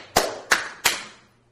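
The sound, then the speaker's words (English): One person clapping hands three times to demonstrate applause, each clap sharp and evenly spaced with a brief ringing decay, followed by quiet. “he stood off his throne and applauded him. Probably more like this.”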